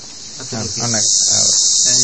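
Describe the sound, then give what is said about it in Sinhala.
Crickets chirp in a high, continuous shrill that grows slightly louder, with a person talking beneath it. “රැහැයියෙක් කෑ ගහනවා කියලානේ අපි දැනගත්තේ.”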